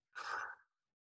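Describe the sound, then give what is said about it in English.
A single breath drawn in through the mouth during a guided breathing exercise, a soft airy rush lasting about half a second, heard alone. “So three, two, one, breathe in through the mouth.”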